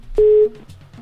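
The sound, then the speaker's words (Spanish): A single steady, mid-pitched ringback tone sounds on an outgoing telephone call, lasting about a third of a second. Before and after it is only faint low background noise. “está ya timbrando, vamos a ver si tenemos oportunidad de que nos conteste en esta ocasión Víctor”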